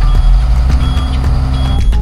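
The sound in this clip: A bus reverses, sounding its backup alarm in regular repeating beeps over a loud, rumbling engine.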